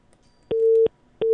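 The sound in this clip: Telephone disconnected tone on a dropped call-in line: a steady mid-pitched beep followed by a pause and a second identical beep that is cut off, loud and clear with no voices.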